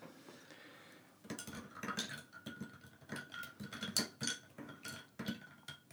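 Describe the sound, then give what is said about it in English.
A cocktail spoon clinks against a glass while stirring a drink: many quick, bright metallic taps in an uneven rhythm that start after a quiet first second and continue to the end, with no talking. “Today, we're back to the cocktail spoon.”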